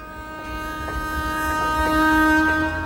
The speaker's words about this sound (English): Later, the train pulls into the station at St. Petersburg.